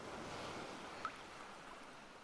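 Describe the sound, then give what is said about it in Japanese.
Ocean waves wash steadily as a continuous broad hiss of surf, with one brief accent partway through and no voices. “全部波音が受け止めてくれるよ。全部流してくれるよ。”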